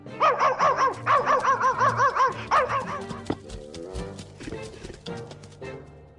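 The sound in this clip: A big dog barking in a children's story: a rapid run of loud, repeated barks fills the first half, then softer background sounds follow.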